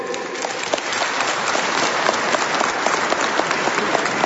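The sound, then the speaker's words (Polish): Warm applause from a crowd at a Catholic parish gathering: dense, sustained clapping from many hands that builds slightly and stays loud and steady, with scattered sharper individual claps standing out. “Także gorące brawa dla nich.”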